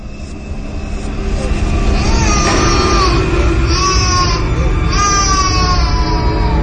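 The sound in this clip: A young child crying in her room upstairs, with several shrill, high wailing bursts rising and falling over a steady low droning background.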